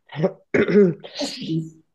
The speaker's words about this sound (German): Vorab, ich bin ein bisschen erkältet, nicht wundern, falls ich mich mal räuspern muss.